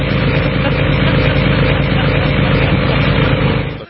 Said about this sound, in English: A snow blower.